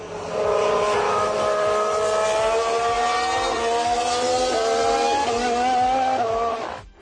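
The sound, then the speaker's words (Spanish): Ferrari racing car engine running in a loud, steady, high-revving drone with strong harmonic tones, shifting pitch in a few small steps near the end before cutting off. “Es un Ferrari. ¿Un Ferrari? Pues no lo hubiese dicho. O sea, que el Ferrari también petardea, ¿eh? Petardea un poco.”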